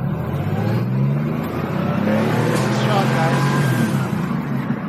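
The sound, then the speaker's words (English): A car being driven on a road: steady, fairly loud engine rumble and road noise that runs unbroken through the whole clip. “Just driving. You know, okay. It's always good to listen to somebody drive.”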